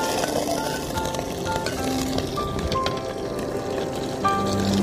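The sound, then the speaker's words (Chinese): Ginger slices and garlic sizzle in hot oil in a wok at the start of cooking braised winter melon, a dense, steady crackling hiss with the scrape of stirring throughout. “首先我们倒入油，锅子热了后，姜片、蒜、蒜头，”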